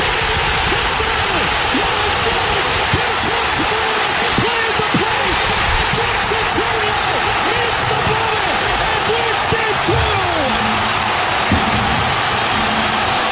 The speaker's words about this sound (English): It's so loud, you can't hear the announcers. This is what you dreamed about when you were a kid of doing. Being the hero of the moment. Listen to that crowd, dude.